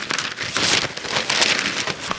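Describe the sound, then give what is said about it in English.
Crinkly, freshly inked newspaper pages rustle as they are flicked through, giving repeated loud papery swishes and crackles with no talking. “Flicking through them in the bureau, eyes swivelling, pages turning, I find out what's making headlines the old-fashioned way.”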